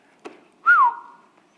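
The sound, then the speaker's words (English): A person whistles into a microphone: a single short tone that briefly rises, dips, then holds steady before fading out, preceded by a soft click. “I don't think I've ever whistled into it. I hope that didn't kill people.”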